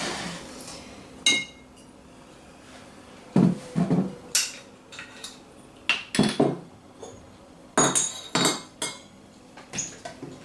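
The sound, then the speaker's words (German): Glass bottles and utensils clink as a homogeneous mixture is filled into bottles: a series of sharp, irregular clinks and knocks, some in quick clusters, with quiet gaps between and no talking. “Gut, nachdem wir jetzt alles fertig haben, ihr seht eine schöne homogene Masse, füllen wir das Ganze einfach in Flaschen ab.”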